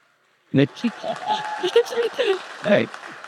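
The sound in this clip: Applause welcoming a speaker, a burst of clapping lasting about three seconds with voices calling out over it.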